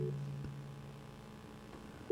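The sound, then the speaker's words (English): Ringback tone of a telephone on an outgoing call: a faint, low, steady tone at the very start, then a quiet stretch, and the tone returning briefly at the end. No one speaks. “we're trying to get hold of Brakaya. It's ringing.”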